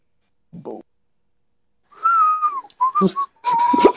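A person whistles a few short, clear, high tonal phrases with brief gaps between them. One longer note dips slightly in pitch near its end, and a short soft rustle comes before the whistling begins.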